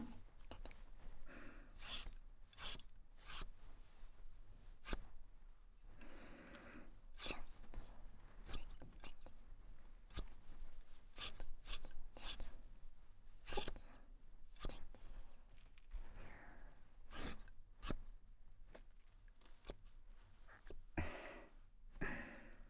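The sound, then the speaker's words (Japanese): Scissors snip through hair in many crisp, irregular cuts, faint and close, with soft whispering between the snips. “この髪切るときに落ちるパターン。”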